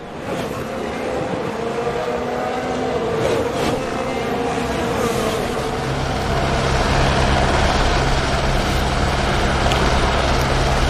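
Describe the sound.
Formula 1 racing cars, including both Ferraris, entering turn one during a race, with a dense, continuous engine roar throughout that grows slightly louder toward the end.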